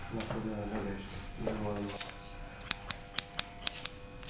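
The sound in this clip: Scissors cut hair during a haircut, six crisp, quick snips in an even rhythm after a stretch of conversation in French.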